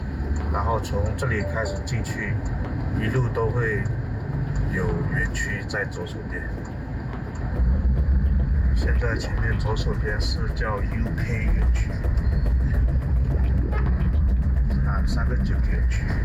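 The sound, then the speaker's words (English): A car engine rumbles steadily as the vehicle drives past scam compounds. The low drone runs throughout and grows louder about halfway through, with people talking over it. “We drive past scam compound after scam compound.”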